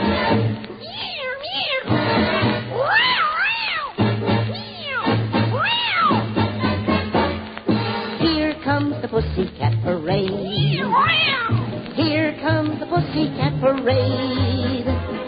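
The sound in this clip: Cats meowing and caterwauling, as on a backyard fence: many wavering meows that rise and fall, overlapping one after another, loud and nearly continuous over a steady, low pulsing backing.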